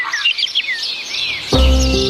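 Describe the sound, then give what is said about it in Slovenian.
Small birds chirp in quick, high twittering bursts, fairly loud and busy, before music with a heavy bass line comes in about two-thirds of the way through. “če bi tele ptički res čivkali danes”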